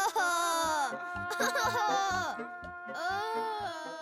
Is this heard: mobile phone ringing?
no